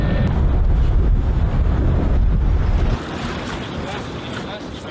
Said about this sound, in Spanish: Yo voy a dejar caer el barco y tú controla la proa. Vale. Mínimo avante.